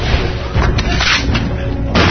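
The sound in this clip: Gunshots fire as a few heavy, booming bursts in a loud, dense stretch of sound, closely spaced across two seconds.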